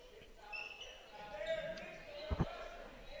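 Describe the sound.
A basketball dribbled on a court during a game makes two sharp, low thumps in quick succession, heard over a steady crowd murmur.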